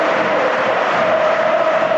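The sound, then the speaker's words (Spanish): Football crowd noise at Mestalla stadium during a match: a steady, dense roar of many voices that holds at an even level throughout, with no distinct words. “Ahora vuelve a animarse el público en Mestalla, tal y como va el partido”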